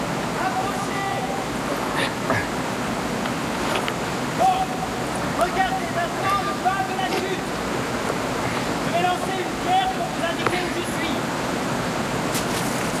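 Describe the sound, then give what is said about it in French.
A waterfall's constant rushing roar, broad and even for the whole stretch, with several people talking and calling to one another over the water. “Derrière la chute d'eau! Comment derrière la chute d'eau?”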